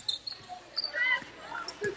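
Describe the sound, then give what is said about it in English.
A basketball is dribbled a few times during a game, giving quiet, dull bounces with uneven spacing amid faint background noise. “Bender takes a few dribbles.”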